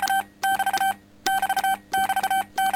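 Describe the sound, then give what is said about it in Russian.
Keyed radio tone from a transmitter worked with a pedal and picked up on a direct-conversion receiver: several bursts of a steady, high beep, each broken into quick pulses, with short silent gaps between them. “Вот я нажимаю на педаль, слышен будет слабый сигнал. И теперь буду манипулировать передатчик.”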